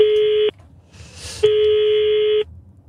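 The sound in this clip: Telephone line tones as a call is placed: two long, steady beeps at a fixed mid-low pitch, the second about twice as long as the first, separated by a brief burst of hiss.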